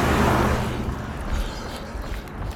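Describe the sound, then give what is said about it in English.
An old white Ford two-wheel-drive pickup truck passes a runner on a road: a broad, steady engine and tyre rumble, loudest at the start and gradually easing off over a couple of seconds. “Here comes a pickup truck. Wave at him.”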